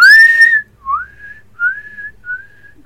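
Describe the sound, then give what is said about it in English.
A person whistles to call someone: a loud, clear sustained note, then three shorter, fainter whistled notes, the first bending upward, all fairly high in pitch and alone. “Okay, so I'll just give Weimar a whistle.”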